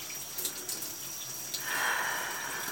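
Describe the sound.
Water runs from a shower head as a steady, soft hiss that swells into a fuller gush partway through.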